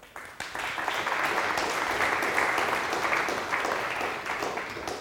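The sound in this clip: Audience applause welcomes a speaker to a talk, a dense, steady wash of clapping that holds at a fairly even level throughout.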